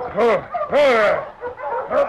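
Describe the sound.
Sled dogs, worn out after a hard pull, bark and yelp in a few drawn-out, whining bursts with bending pitch, loud and close together.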